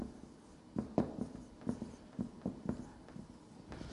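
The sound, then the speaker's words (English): Someone writing by hand, a series of short, soft scratching strokes in an irregular rhythm, faint and alone with no voices. “How many of you have heard of the principle of sins of commission and omission? I'm just going to write it down this way.”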